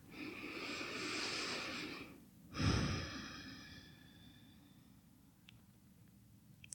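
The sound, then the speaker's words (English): Deep breathing during a guided relaxation exercise: one long, slow breath in, then a fuller, louder breath out, followed by near silence. “And then just take a couple of deep breaths.”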